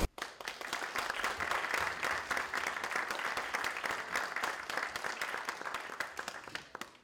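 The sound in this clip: An audience at a Villanova lecture applauds to welcome a speaker. Dense, steady clapping starts abruptly and runs for several seconds, quiet overall and easing slightly toward the end.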